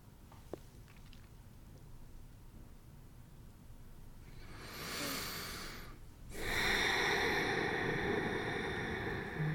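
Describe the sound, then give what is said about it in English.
Quiet breath, heard as two soft airy rushes, a brief swell followed after a short gap by a longer, steady breathy hiss that continues to the end. “Just taking a breath and just letting that land a bit.”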